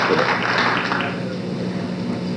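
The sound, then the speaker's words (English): Sustained applause from an audience on its feet in a standing ovation, a dense, steady wash of clapping at moderate level with no single voice standing out. “the audience on its feet, and the ovation going on and on”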